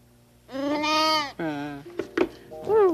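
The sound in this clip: Lambs bleat in a few loud, wavering, high-pitched calls. The first two are the longest and shaky in tone, followed by shorter, choppier sounds.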